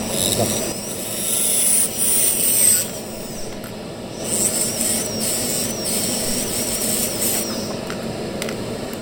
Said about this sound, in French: Pour ce faire on prend une pièce à main et vous avez l'aspiration pour pouvoir aspirer le plat, la poussière.